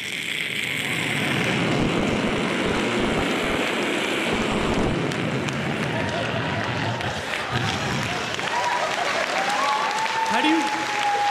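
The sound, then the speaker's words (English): A jet airplane passes overhead near JFK Airport, about seven miles out, one of the flights that come over every couple of minutes. A steady, broad roar fills the whole clip, and a thin whistling tone rises out of it near the end. “anyone lives near the airport, you know, every, this is what you hear, every 2 minutes, 20 seconds.”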